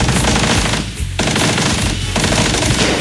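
Soldiers firing machine guns in a loud, continuous rattle of rapid shots that barely dips twice before resuming at full intensity.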